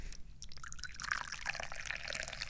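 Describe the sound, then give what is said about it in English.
Tea from a second infusion is poured into a cup, a soft, continuous trickling of liquid that is faint and stays steady for a couple of seconds. “And I like to drink tea, so let me pour some tea here,”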